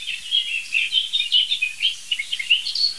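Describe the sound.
Outdoor birdsong with a blackbird among the singers, heard as a busy stream of quick, high chirps and twittering phrases, fairly faint and unbroken by any voices.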